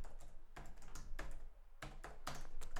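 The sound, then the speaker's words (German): Fingers type on a computer keyboard in a quiet, continuous clatter of small key clicks, with short pauses between bursts of typing. “deswegen tippe ich auch gerade so ein bisschen und bin, ähm, äh, bin so ein bisschen überfordert, parallel zu sprechen”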